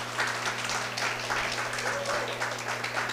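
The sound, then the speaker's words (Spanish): An audience applauds during a church service: dense, steady clapping from many hands runs throughout, fairly faint, over a low hum. “Denle el aplauso al Señor,”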